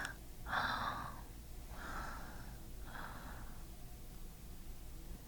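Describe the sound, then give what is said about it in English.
Warm breath blown right against the microphone comes as three soft, airy puffs spaced a second or so apart, each a breathy hiss that fades into quiet, faint and alone without any talk. “Do you feel my warm breath on your head?”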